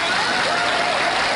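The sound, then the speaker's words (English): Applause rises during a church service as dense, steady clapping, with a voice talking over it. “God is the one that gets that applause.”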